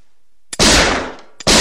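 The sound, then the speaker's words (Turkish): Two loud gunshots are fired inside a room, each preceded by a faint click; the first blast rings out and decays over about half a second before the second cracks. “Odanın içinde silah sıkınca kız irkildi.”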